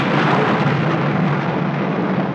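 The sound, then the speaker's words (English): Thunder from a storm rolls as a steady, loud, broad rumble that holds without a break and with no voices. “It's quite on the cards that this storm may last all night, so we shall just have to make the best of a bad job.”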